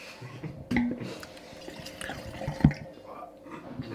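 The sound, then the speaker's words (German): Chardonnay Pure white wine is poured into glasses: a faint, soft trickle of liquid with scattered drips, broken by a couple of sharper knocks as glass and bottle meet. “Jetzt haben wir den Chardonnay Pure, die zweite Füllung. Ich würde sagen, damit es hier nicht so trocken abläuft, schenken wir uns den mal ein.”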